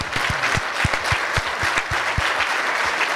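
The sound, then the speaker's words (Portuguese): Applause with many hands clapping steadily and loudly for about three seconds, with a few sharp individual claps standing out in an uneven rhythm and no talk over it. “Palmas para Deus.”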